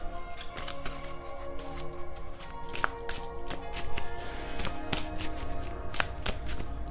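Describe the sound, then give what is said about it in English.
A deck of cards is shuffled and drawn: rapid, soft riffling with crisp little taps runs steadily throughout. “So I'm gonna pull a couple other cards here.”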